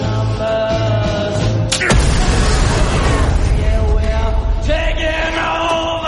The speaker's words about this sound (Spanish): Tres cruzan un túnel, se aproximan a un explosivo. John aguarda escondido con el detonador, lo activa.